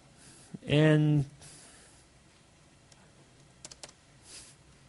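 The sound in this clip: Keyboard keys tapped while blank lines are added in a text file in a code editor: a few light, isolated clicks, faint and widely spaced.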